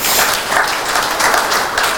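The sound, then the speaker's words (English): An audience applauds with steady, dense clapping at an even, fairly loud level throughout, with no voices standing out. “can we give Gemma a round of applause, please?”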